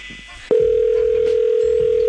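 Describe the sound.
Telephone dial tone after a call is hung up: a short click, then a loud, steady, unbroken electronic tone that holds to the end.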